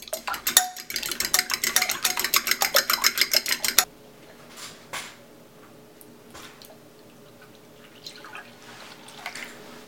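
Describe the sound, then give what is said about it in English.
A fork beats an egg in a bowl with rapid, regular clicking strokes, many quick taps for several seconds. Quieter, softer liquid sounds follow as milk and oil are added to a batter. “First, lightly beat an egg with a fork, and then add in the rest of your wet ingredients, so your milk and your oil.”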